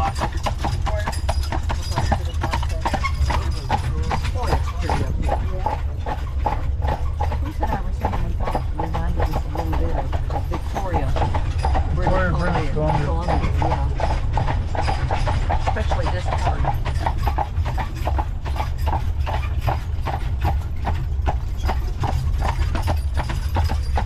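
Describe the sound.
Horse hooves clip-clop steadily near a stable, over a constant low rumble that runs through the whole stretch.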